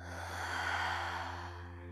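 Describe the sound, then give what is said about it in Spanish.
A long, deep exhale through the mouth during a relaxation breathing exercise, a steady breathy rush that swells slightly and then eases away, with no talk over it. “Y por tu boca exhala soltando todo el aire.”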